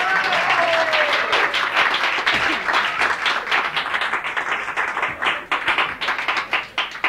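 Audience applause at a live show, dense and sustained clapping from many hands that holds steady and loud, thinning slightly toward the end as individual claps become more distinct.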